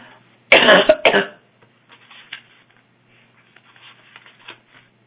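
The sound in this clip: Coughing and throat clearing from a tickle in the throat: a loud, rough burst of a few coughs in quick succession, followed by faint scattered rustles and small clicks in otherwise quiet surroundings.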